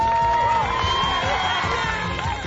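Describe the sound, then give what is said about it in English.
A crowd cheers at an exciting Black Friday sale, a dense, continuous roar of shouts and whoops over a brief stretch. “This is the sound of an exciting Black Friday sale.”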